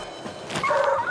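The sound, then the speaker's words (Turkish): Dogs yip and whine in a video game, barking from a hilltop while guarding a valley against predators. Short, mid-pitched calls with a thin whining tone grow louder in the second half. No talking. “O da neydi? Bu hiç iyi değil. Trixie ve Viola tepede havlıyor ama az önce Trip'in sesini aşağıdan duydum.”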